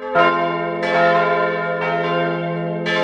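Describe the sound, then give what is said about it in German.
Bells of a village Reformed church ringing. Several overlapping strikes sound at an uneven pace over a continuous, resonant, humming ring that sustains throughout, loud and with no voices. “Das ist meine Chile. Also die Chile im Ort, wo ich wohne. So höre ich die Chile.”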